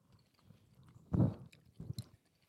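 Chewing of a fishy Alaskan jerky with a barbecue-like flavor: a faint, moist bite swells into one louder crunching burst, then a few softer chews follow, with no talking.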